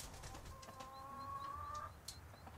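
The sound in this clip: Chickens call in a stall with nests: a faint, drawn-out hen note is joined by a few brief, higher chirps, all soft and steady.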